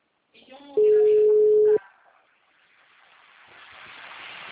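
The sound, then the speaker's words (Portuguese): A telephone tone sounds after a dropped call: a brief voice, then one steady, loud mid-pitched beep lasting about a second, followed by faint line hiss that slowly grows louder. “A ligação caiu, eu vou falar com ele de novo.”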